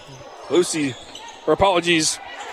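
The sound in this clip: A basketball is dribbled on the court during a women's game, a few low bounces beneath a commentator who keeps talking.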